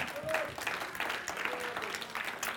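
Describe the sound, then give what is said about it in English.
A church audience claps in praise during a sermon. The crackly, continuous hand clapping stays faint and steady from start to finish, with some voices mixed in. “You've got a hand clap of praise.”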